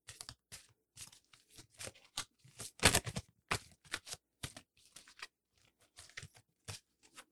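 Tarot cards handled and shuffled: quiet, irregular papery rustles and swipes, with one louder riffling burst in the middle and softer card slides around it.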